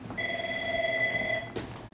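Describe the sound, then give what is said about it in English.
A phone rings with a single steady electronic tone lasting just over a second, then cuts off abruptly, with no talk. “My phone's ringing. Hold on 1 second.”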